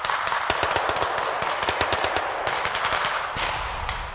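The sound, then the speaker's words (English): Armed men fire automatic weapons at a rapid reaction force in a video game. Many sharp gunshots crack in quick, uneven bursts, with a brief pause near the end. “And now there are some armed men now coming out of the vehicle and firing towards the rapid reaction force.”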